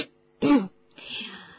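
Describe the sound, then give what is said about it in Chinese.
A man clears his throat in one short, rough burst, then gives a softer, breathy rasp that lingers for a moment before fading. “菲利维教授清了清嗓子”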